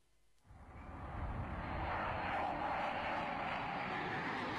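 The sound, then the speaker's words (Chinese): Jet engine roar from a Chinese J-8 high-altitude fighter jet rises from near silence into a loud, broad rushing drone, then holds steady and unbroken to the end. “顾颂芬让歼八鹰击长空”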